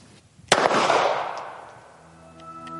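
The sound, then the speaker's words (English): A single pistol shot, a sudden loud crack followed by a long fading ring that dies away over about two seconds, with no voices. “First, you would load your ammunition. You would insert the magazine. You would direct the slide. And fire the weapon.”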